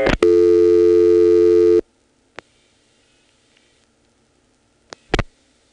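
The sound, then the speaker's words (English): A telephone call goes through a step-by-step exchange after 49 is dialed to drop the register sender. A steady, loud tone cuts off after about a second and a half, then a few sharp, isolated clicks follow in near silence. “If you want to hear the call actually going through, step by step, all you have to do is dial 49 to drop the register sender, and then dial what it would have dialed, like this. I'll dial 49.”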